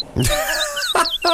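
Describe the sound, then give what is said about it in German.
Bird calls from two birds riding a train in Australia: a few harsh, harmonic squawks and whistles with gliding pitch, loud and in short separate bursts. “Zwei Vögel fahren in Australien täglich mit dem Zug zu ihrer Futterstelle.”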